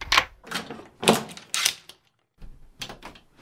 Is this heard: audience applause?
no